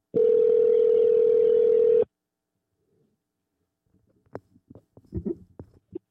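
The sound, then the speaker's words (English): A steady telephone dial tone plays while a call is placed to a hotline. The single unbroken tone holds for about two seconds and then cuts off. After a pause come scattered soft clicks and handling noises. “So let's get a caller on the line. Got the hotline going. Get a caller on the line.”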